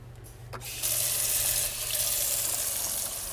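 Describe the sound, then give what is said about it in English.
A kitchen sink tap turns on and runs, a steady bright rush of water that continues at an even level after a soft start. “And then wait for the sink to warm up.”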